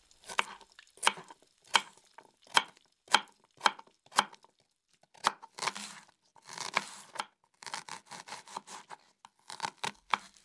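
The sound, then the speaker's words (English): Knife chopping tomato, lettuce and onion for a hamburger: many crisp strokes at a steady rhythm, then quicker, crunchier cuts near the end. “Now, cut the tomato, the lettuce, and the onion, and put it on the bread.”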